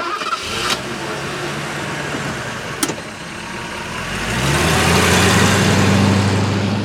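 A car engine idles as a low steady rumble, then swells louder with a rising hum as the vehicle pulls away to drive on, with no voices heard.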